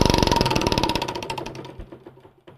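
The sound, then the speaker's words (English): A prize wheel spins with rapid, loud mechanical ticking that starts fast and evenly spaced, then gradually slows and grows fainter as the wheel winds down. “let's spin the wheel.”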